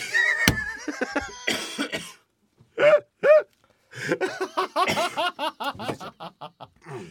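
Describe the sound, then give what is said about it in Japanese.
Coughing from allergies: after some voiced sounds and a brief silence, two sharp isolated coughs, then a rapid run of short voiced bursts. “いやどんだけ出んねん咳、 咳がね最近 アレルギーやん”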